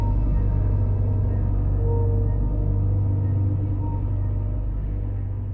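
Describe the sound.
A car's low engine rumble, steady and continuous with no voices, easing slightly in level toward the end as the last vehicle leaves.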